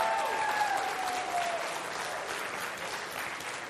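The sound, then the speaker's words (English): A church audience applauds to welcome first-time guests with steady, dense clapping that lasts throughout and eases slightly toward the end. “We're especially glad for our first-time guests here today. Let's give them a big hand.”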